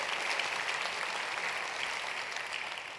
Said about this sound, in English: If you're a regular part of the Bridge, would you join me? Let's put our hands together this morning and welcome all of our guests today.